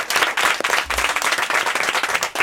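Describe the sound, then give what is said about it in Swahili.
Brisk group applause comes from students in a studio, a dense and loud patter of many hands clapping without pause. “Wow, hebu tujipigieni makofi.”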